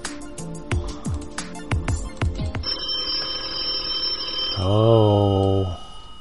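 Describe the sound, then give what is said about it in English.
An outgoing telephone call rings: a burst of short plucked tones gives way to a sustained high electronic ring, then a lower warbling tone that cuts off abruptly. “and let's give him a ring. Holla bing. How's that sound? Okay. Hold on a second. Let's call him up.”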